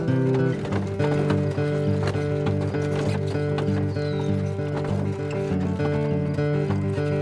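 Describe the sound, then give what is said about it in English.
Horse hooves clip-clop as a horse-drawn wagon arrives, a steady run of many loud hoofbeats sounding over sustained tones throughout. “I'll go fetch the wagon.”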